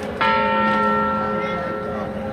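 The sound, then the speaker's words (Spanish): A church tower bell sounds a single loud stroke near the start. Its bright, layered overtones then ring on as a steady, sustained hum that slowly decays. “La reivindicación mensual de la Torre del Orejón, tocando 8 campanadas, eran las 8 de la tarde, desde la iglesia de Santa María.”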